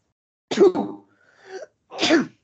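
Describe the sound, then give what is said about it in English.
A person sneezes loudly twice, with a softer, breathy sound between the two sharp, sudden bursts and no talk over them. “Gerrit Cole, he stinks so bad it just makes me sneeze and sniff”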